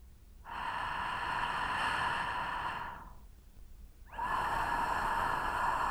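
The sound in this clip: A voice demonstrates correct throat friction, a breathy rasp formed deep in the throat rather than at the front of the mouth. It is held in two long, steady stretches separated by a short pause.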